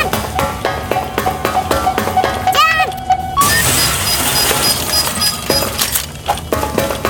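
A case being smashed in a video game: a bright shattering crash with sparkly clinking effects over a rhythmic electronic music backing.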